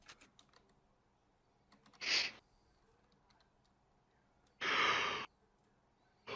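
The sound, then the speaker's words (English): A yawn comes through as breathy, noisy exhalations, a short one followed by a longer, drawn-out one, over faint scattered clicks. “No yawning”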